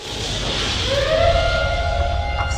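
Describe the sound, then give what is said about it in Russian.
A siren sounds in a room as a red light switches on, its wailing tone climbing in pitch and then holding a steady, harmonic-rich whine. It is loud and continuous over a constant background rush. “Раздается сирена.”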